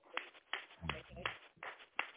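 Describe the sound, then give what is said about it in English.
A church audience claps in praise during a worship service. Faint, steady rhythmic claps repeat about six times, with a low voice murmuring partway through. “Somebody give God a praise. Hallelujah. Yes, Lord. Give God a clap offer. Somebody give God a clap offer.”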